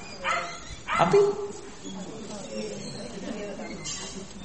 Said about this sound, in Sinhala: දැන් සද්දේ අහලා හිතෙන් බල්ලෙක් හදලා